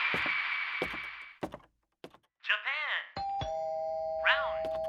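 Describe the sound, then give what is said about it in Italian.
A doorbell rings during a video-game session at home. A bright chime with falling tones sounds twice, mixed in with tapping and thunks and a steady electronic tone. “Oh, hanno suonato. Vado.”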